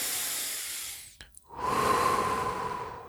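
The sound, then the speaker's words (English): A deep breath drawn in through the nose and let out through the mouth, heard as two loud, hissing rushes of air separated by a brief silent pause. No voices or other sounds are present. “Let's do it again. Ready? Inhale deep through the nose and exhale out through the mouth.”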